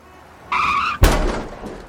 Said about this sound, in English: you just crashed into my Mazda Demio